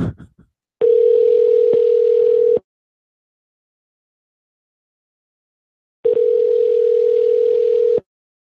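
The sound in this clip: Ringback tone of an outgoing telephone call waiting to be answered before voicemail picks up: two steady, loud buzzing rings, each about two seconds long, separated by a long silent gap.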